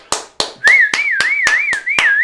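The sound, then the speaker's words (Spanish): Rhythmic clapping in a church service, eight loud, evenly spaced claps in a steady beat, with a sustained wavering high tone starting after the second clap and running beneath the rest. “Damos ese aplauso al Señor.”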